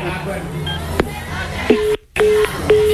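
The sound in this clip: A phone number is redialed, producing a few short, steady electronic beeps in a loose sequence. Voices and background chatter run beneath the tones.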